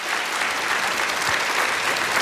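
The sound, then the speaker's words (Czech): Applause for guests: dense, continuous clapping at an even, steady level throughout, with no voices standing out. “Potlesk pro vás,”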